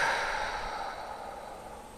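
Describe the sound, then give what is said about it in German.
A deep breath out through the mouth during a guided breathing exercise: one long, soft exhale that fades gradually, with no talking. “Und dann nehmen wir nochmal einen tiefen Atemzug durch die Nase rein. Und durch den Mund wieder aus.”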